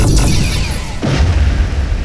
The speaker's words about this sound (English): Power the weapons. Target their engines. Yes, sir. Fire.